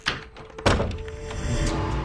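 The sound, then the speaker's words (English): A bedroom door in a hallway swings shut with two dull thuds, the second heavier, followed by a low lingering rumble. No speech is heard. “They close the door.”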